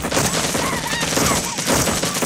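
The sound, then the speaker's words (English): Gunfire from a squad of soldiers shooting from a bridge. Rapid, overlapping shots form a loud, continuous fusillade with no pause across the stretch. “The rest of the squad fire from a bridge.”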